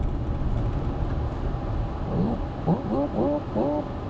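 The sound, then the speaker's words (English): A tow truck drives past, heard as a steady, low engine and road rumble that holds at a fairly even level throughout, with a brief warbling tone rising near the end. “Oh, never mind. Just a tow truck.”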